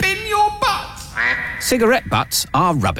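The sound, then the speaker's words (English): A duck gives a few nasal quacks, loudest near the end, while a person speaks over and around them. “The duck is not happy. It wants you to bin your butts.”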